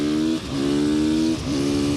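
A car engine accelerates on a wet track with a loud, steady, buzzing tone. Its pitch briefly drops twice, then climbs back and holds.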